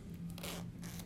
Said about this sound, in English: I just keep playing with things that I'm holding. I'm like messing with my zipper.